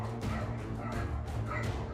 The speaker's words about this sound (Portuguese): Eu falo, desculpe, cachorros.